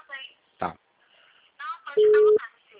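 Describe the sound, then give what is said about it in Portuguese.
A telephone call tone plays over speakerphone: one steady, low beep lasting under half a second, with people talking just before and after it. “Eu coloquei aqui no Viva Voz, tá? Se precisar falar alguma coisa.”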